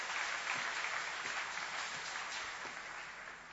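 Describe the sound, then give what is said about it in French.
An audience applauds during a French-language church service, an even, continuous patter of many hands at a moderate level that eases off slightly toward the end. “Jésus reviendra un jour. Acclamons son prochain retour. Alléluia.”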